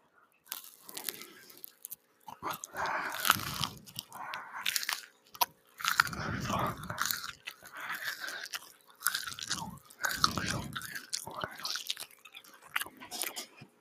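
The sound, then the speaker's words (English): Food is bitten and chewed in many loud, crunchy, wet bursts with short pauses between them, alone without talk. “Take another bite.”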